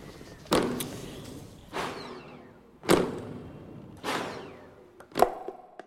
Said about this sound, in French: Et Masséra fait le salut militaire en faisant claquer ses talons.